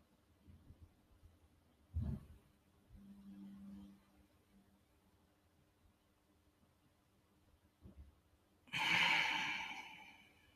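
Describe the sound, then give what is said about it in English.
Slow, deep breathing during a guided breathing exercise: one short breath sound early on, then quiet stretches, and near the end a long, loud, airy breath drawn in that slowly fades. “Breathe in for four,”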